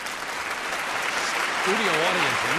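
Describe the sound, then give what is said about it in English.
Studio audience applause: a dense, steady wash of clapping throughout, with a voice starting to talk over it near the end. “Studio audience loving it, as they should.”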